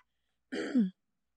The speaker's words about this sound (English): You notice the throat clearing? Like, something's getting caught there.